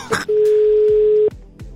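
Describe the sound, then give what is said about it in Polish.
A single steady telephone tone sounds as a call is being dialed, holding one even pitch for about a second before cutting off, with faint low thumps around it and no speech. “No dobra, dzwonimy do Kaśki.”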